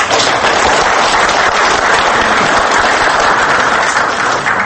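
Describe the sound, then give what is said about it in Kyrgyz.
An audience applauds student filmmakers who made their film with their own money, producing dense, continuous clapping that stays loud and even for nearly five seconds. “Мына ушуларга кол жабабыз.”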